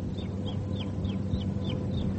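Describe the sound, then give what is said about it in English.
A young chick cheeps in a regular series of thin, high peeps, each sliding downward in pitch, repeating about three times a second over a low rumbling background. “What is that? One of Clara's chicks. I think she wants to go somewhere.”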